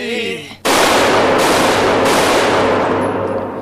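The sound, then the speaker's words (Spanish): Machine gun fire in a mock game-show endurance contest erupts after a brief voice, a dense, loud, continuous rattling roar that surges slightly twice before tapering off at the end. “Esta prueba consistirá en ver quién es capaz de aguantar más tiros de metralleta sin morir.”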